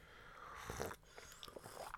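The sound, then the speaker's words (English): A slurp of morning tea or coffee from a mug, taken while sitting in bed: short, breathy, wet sucking bursts, fairly faint and heard alone. “Cup of tea and coffee in our mugs. And here is the first slurp of the day.”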